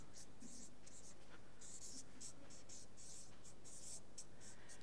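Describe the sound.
Faint scratching of a pen writing during a spoken talk on blessing: many short, dry strokes in irregular bursts, soft and scratchy throughout.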